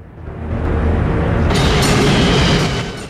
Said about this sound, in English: A train snakes along a snowy metropolitan track.